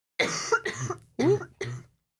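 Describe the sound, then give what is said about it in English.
A woman breaks into a short series of harsh, throaty coughs, loud bursts separated by brief pauses, with no talking between them. “You can cough, it's okay, let it out. Don't explode. she was trying not to cough”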